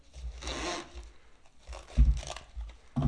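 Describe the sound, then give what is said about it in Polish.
Plastic food wrap is torn and laid over a bowl of starter dough, heard as a few short crinkling, rasping bursts of film with soft handling bumps between them, fairly faint and with no talk. “ale ja najbardziej lubię stosować folię, przy czym zawsze się staram, żeby albo nie założyć jej bardzo ściśle, albo zostawić malutki otworek”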